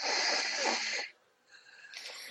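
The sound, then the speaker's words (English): Breathing in and out through one nostril, with the other nostril closed during a breathing exercise. A long, loud hissing nasal breath is followed by a short pause, then softer airy breath sounds. “So you would just inhale, close the nostril, exhale, and continue just on that side. Just inhale right, exhale left.”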